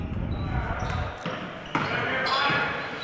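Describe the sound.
A basketball dribbled on the court during a game, a few muted bounces thumping under steady crowd noise and voices.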